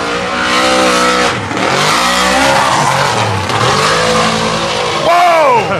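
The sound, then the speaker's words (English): A race car on throttle struggles for traction, its engine surging up and down in several loud revving sweeps with tire squeal, ending in a sharper rising whine. “Struggling for the whole way down. Struggling for traction. Anytime he got on that throttle,”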